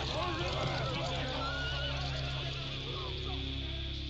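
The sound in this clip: Horses neighing as they are ridden up a drive. Wavering whinnies sound over a steady, dense background rumble throughout.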